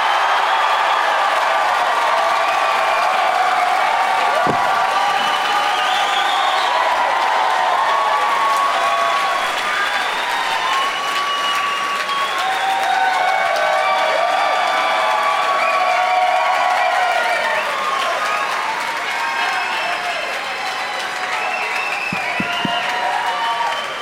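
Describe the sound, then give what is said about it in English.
Studio audience applause and cheering to welcome three contestants onto a comedy panel show. Loud, sustained clapping with scattered whoops and shouts continues without a break, easing slightly near the end. “So please give a big warm welcome to Adam Burke, Rachel Dent, and Mark Wahlberg.”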